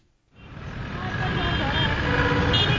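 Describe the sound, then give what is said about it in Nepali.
Busy road traffic at Maitighar Mandala in Kathmandu, packed with vehicles mid-morning, rises from near silence into a steady, loud rumble of engines that continues unbroken to the end. “बिहान दस तेइस बजे सवारी साधनले खचाखच भरिएको छ माइती घर मण्डला धुवा र ध्वनिले वातावरण कोलाहल छ”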